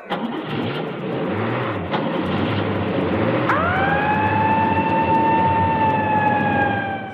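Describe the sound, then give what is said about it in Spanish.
A police siren at a rock concert emergency starts partway through, sweeping up and then holding a steady, loud wail over a dense, rumbling engine-like roar that fills the whole clip. “ahí está las sirenas que nos dice esto, represión policial, descontrolados”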